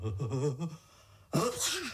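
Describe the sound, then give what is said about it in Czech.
A sneeze in an acted scene: a drawn-out voiced, wavering intake, a short pause, then a sudden loud noisy burst that trails off into a voiced tail. “Vlastně, kdo to kýchl? Bylo to tady nebo vedle?”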